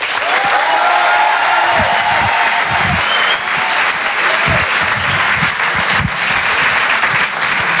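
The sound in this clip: A comedy club audience applauds a comedian coming on stage, a dense and steady wash of clapping that stays loud for about eight seconds with faint cheers mixed in.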